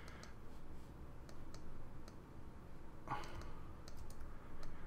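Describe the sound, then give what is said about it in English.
Soft computer mouse clicks from someone editing in software, a scattered series of short, faint ticks spread across the stretch over a low background hiss, with no talking. “I think it's you gotta click and hold, you gotta click it.”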